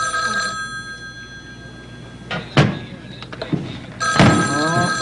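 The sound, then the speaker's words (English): A telephone bell rings in a steady, bright, tinny trill, broken by a few soft thuds and short louder bursts. Faint voice-like sound sits beneath it. “First, you wait for the phone to ring. Oh, very good. Now, the ringing sound you hear is your signal to pick up the receiver.”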